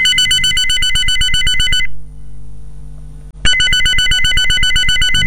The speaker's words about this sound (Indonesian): Gimana kalau aku telepon dia lagi aja ya?